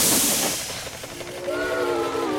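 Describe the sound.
A toy train whistle sounds: an opening hissing burst gives way to a steady, slightly wavering whistle tone held to the end.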